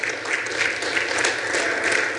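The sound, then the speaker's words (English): A church audience claps hands during a morning service, a loud, steady, continuous patter of many hands without breaks or voices. “Can you give the Lord a hand clap this morning?”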